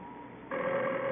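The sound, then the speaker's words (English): A telephone rings in a home, a steady electronic ring that starts abruptly about halfway through and holds at an even pitch and loudness to the end, over a faint background hiss, with no talk. “I know it's the phone.”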